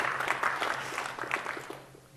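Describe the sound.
Audience applause rises quickly into a busy patter of many hands clapping, then thins and fades toward the end.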